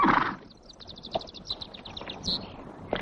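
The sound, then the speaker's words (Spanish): Hooves of a horse galloping along a road as a knight rides alone toward a convent in the 1961 epic El Cid: a fast, rhythmic clip-clop of many light hoofbeats, fairly faint. “Más tarde Rodrigo cabalga solo por un camino hasta llegar a un convento donde lo reciben tres monjas.”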